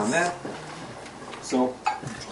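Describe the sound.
A metal lid is pulled off a cholent pot with a few clattering clanks and scrapes of metal on metal, mixed with talk.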